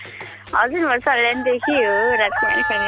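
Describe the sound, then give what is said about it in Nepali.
Rooster crowing in a series of several drawn-out, wavering, strongly tonal calls, loud and following one another with short breaks. “पोतुको जस्तो आवाज छ, भाले गरेर आएको। खासमा यो आवाज भालेको कि पोतीको?”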